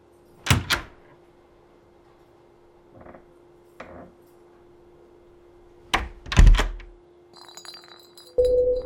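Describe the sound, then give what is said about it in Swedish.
Knocking on a hotel room door, a few sharp, hollow thuds spaced apart across near-silence with a faint steady hum, then a brighter clink and a rise in noise at the end. “en av hotellets städare knackar på dörren till rum nummer 2005.”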